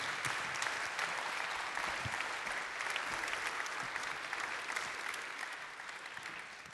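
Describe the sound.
Audience applause welcoming a pastor and his wife onto the stage: dense, sustained clapping from many hands, steady throughout and easing slightly toward the end.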